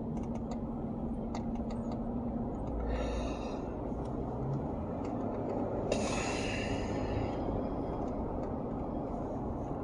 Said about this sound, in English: Now I'm driving home and it's almost the same amount of time and distance.